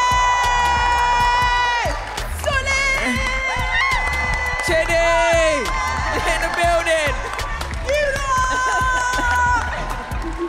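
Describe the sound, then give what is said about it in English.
A show audience cheers, shouts and claps for departing guests, a loud, continuous crowd roar laced with high-pitched shrieks and whoops that barely lets up. “Can you guys give a round of applause to our guests?”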